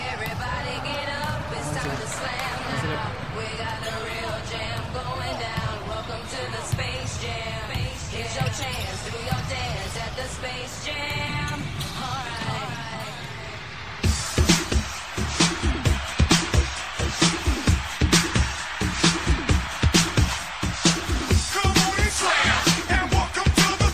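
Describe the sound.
A radio show jingle plays for a caller from Lobos on a basketball talk program, a dense musical sting that switches about two-thirds through to sharp, rhythmic percussive hits.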